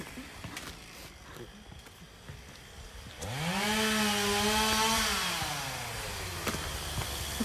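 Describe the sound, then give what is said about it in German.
Loud sawing of a tree with a chainsaw-like buzz that starts abruptly partway through over a quieter background, climbing in pitch, holding steady, then sagging slightly as it continues to the end. “Und das Tier konnte gar nichts hören, weil es so laut sägte.”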